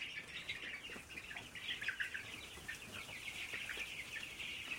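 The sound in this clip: Black and red chickens and a few guinea fowl call inside a farm poultry house, making a continuous chorus of overlapping clucks and shrill calls that stays at a steady, moderate level throughout.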